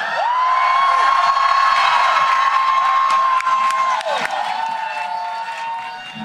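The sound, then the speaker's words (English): A crowd cheers and applauds as a performer is welcomed to the stage at a live evening show, with whoops, a long sustained high-pitched shout and steady clapping under the noise. “Put your hands together and get your ears open.”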